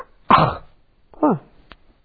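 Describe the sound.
Coughing from a person who has just swallowed a flying insect, with two harsh throaty coughs separated by a pause and followed by a short click.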